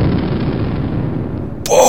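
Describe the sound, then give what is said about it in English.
An explosion blast sound effect: a loud, sustained rumbling roar that holds steady, then cuts off abruptly near the end. “Boom! The blast occurs”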